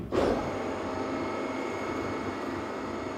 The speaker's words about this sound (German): So, dann Achtung, Bühne fährt.